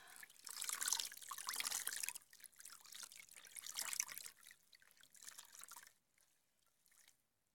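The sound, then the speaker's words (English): Faint running water while a child's legs are washed: a steady splashing trickle from a tap that continues for about six seconds, then stops, leaving near silence. “Mommy's just gonna wash you. Okay, now I'm gonna wash your legs.”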